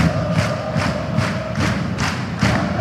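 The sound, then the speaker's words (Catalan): Rhythmic thumping of a crowd jumping in unison at the Garbí Arena, steady regular thuds under a loud, continuous roar of cheering. “Aquest és l'ambient del Garbí Arena. Així salta la gent, així salta el públic. Així estan de contents.”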